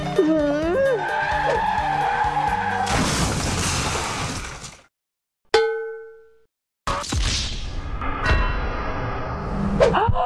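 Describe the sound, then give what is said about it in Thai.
A car skids and crashes. A harsh, hissing screech cuts off into silence, and a single bright ding rings out. A loud crash follows, with shattering and metallic clanging, and warbling voice-like sounds open the sequence. “เมื่อกี้รถชนกันหรอขับรถประสาอะไรกันเนี่ย”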